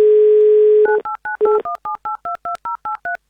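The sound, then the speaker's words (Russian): A telephone number being dialed: a steady dial tone gives way to a rapid string of about a dozen evenly spaced touch-tone beeps, each brief and clear, with no voices. “Набрали номер Алексея из Санкт-Петербурга, 2083.”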